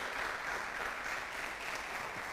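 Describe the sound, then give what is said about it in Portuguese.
A church audience applauds in a faint, steady, even patter of many hands clapping. It holds at one level throughout, with no distinct voices on top. “Tem alguém para dar um aplauso, dar um glória a Deus aí?”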